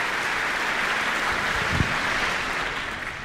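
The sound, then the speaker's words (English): Audience applause for an orchestra at a concert: a dense, even wash of many hands clapping, loud and sustained throughout with no voices rising above it. “Applause for Jim and you, getting the orchestra on their feet.”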